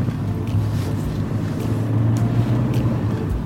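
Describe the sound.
A car drives along a country road, a steady low engine rumble mixed with wind noise that drones on without distinct events.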